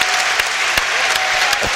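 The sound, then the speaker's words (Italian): Crowd applause fills a basketball arena as a 41-year-old veteran player leaves the court: dense, steady clapping with a few sharper claps standing out, and no voices. “Esce Logan, dagli applausi del pubblico e anche i nostri.”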